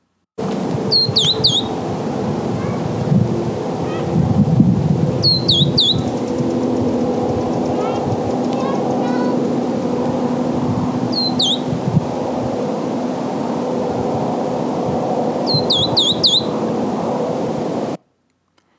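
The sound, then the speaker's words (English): Verdin song from a small desert bird: four short bursts of thin, high, whistled notes separated by long pauses, over a steady low background hum with no talking. “When you hear this song, you know that a Verdin is nearby.”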